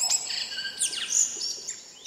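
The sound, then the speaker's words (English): Call of a tui bird in New Zealand: clear, high whistled notes with several quick downward-sliding sweeps, ringing out continuously over a steady hiss of background noise. “Back in New Zealand, I'd enjoy listening to the beautiful call of the tui bird,”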